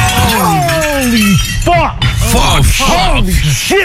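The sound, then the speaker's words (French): Glass shatters as a python breaks the pane of its vivarium, a bright crash of breaking glass overlapped by excited voices crying out. “il s'est sauvé de son vivarium, il a pété la vitre”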